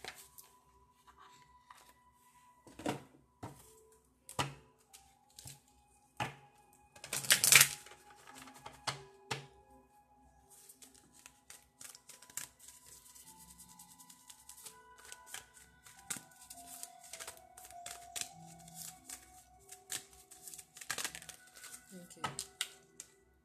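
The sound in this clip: Love oracle cards being shuffled by hand: a few papery riffles and soft slaps, one louder burst near the middle, then a steady rustle of cards under quiet talking.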